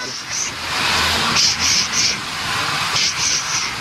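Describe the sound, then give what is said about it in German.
Steady, broad hiss of steam from an old steam locomotive built in 1925 in Winterthur, pulling a historic train, with faint high whistling tones flickering in and out. “angetrieben auch von einer alten Dampflok, die zischt und zischt. Sie hören's ja hier schon.”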